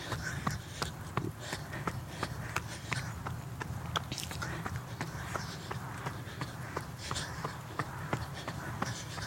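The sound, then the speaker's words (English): Footsteps of someone jog-walking outdoors into the wind: many quick, evenly spaced footfalls in a steady rhythm over a constant low rumble of wind. “Okay, come to a jogger, well, jogger walk, yeah.”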